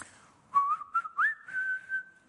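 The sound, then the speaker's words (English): A whistled fast-food advert jingle plays as a short, clear tune of a few quick notes, rising to a long held tone that fades out. “Follows the little whistle on all of their adverts.”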